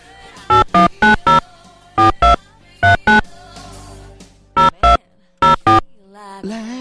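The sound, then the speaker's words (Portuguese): A telephone ringing while an outgoing call is placed: loud, bright electronic tones in short paired bursts, repeating several times with uneven gaps over a low background hum. “Pera aí que eu vou ligar pro Genivaldo, só pra dar um oi nele lá.”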